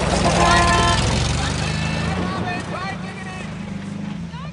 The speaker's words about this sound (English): Robin watches them drive off.